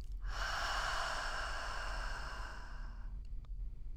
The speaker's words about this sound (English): Let's do that one more time. Breathing in and breathing out.